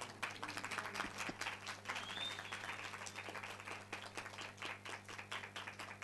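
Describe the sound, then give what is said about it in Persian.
Audience applause, a dense patter of many hands clapping that stays steady and fairly faint for the whole stretch. “بس ادامهش رو بخونم یا این که حالا یه دست بزنید.”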